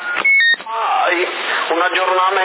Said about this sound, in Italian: Un attimo, forse il telefono. No. Era il ponte che si stava eccitando